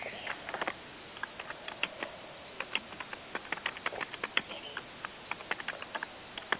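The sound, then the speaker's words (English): A computer keyboard clatters as a reply is typed, with many quick, uneven key clicks in short irregular runs, fairly quiet throughout. “and Raoul Ver is asking when the meeting is starting, so I shall type back to him and say now.”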